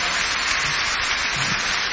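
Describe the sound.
Dense, loud applause welcomes a performer called onto the stage. The clapping is a continuous, even roar throughout.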